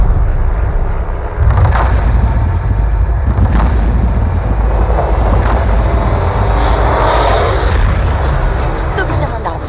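Jet airplane engines at an airport, a loud, steady, broad roar that fills the whole stretch, with a thin high whine gliding upward through the middle and a few brief gusts of louder rushing noise.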